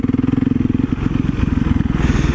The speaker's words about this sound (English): One thing that I've noticed about riding a supermoto that looks like a dirt bike is everybody thinks that it is a dirt bike.